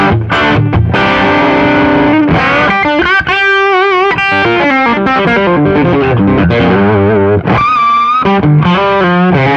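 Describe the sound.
Electric guitar played fast through high-gain distortion with a bright tone, loud and dense runs of notes with brief pauses, heard alone without talk.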